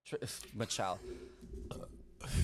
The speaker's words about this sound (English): My Four Loko burp.